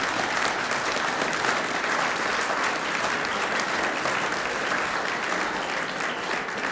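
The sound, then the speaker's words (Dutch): Sustained applause for a large radio choir after a concert performance, a steady, dense wash of clapping that holds an even level from start to finish with no voices over it. “dan nog één keer een applaus voor dit grote omroepkoor en Ben Martin Weijand.”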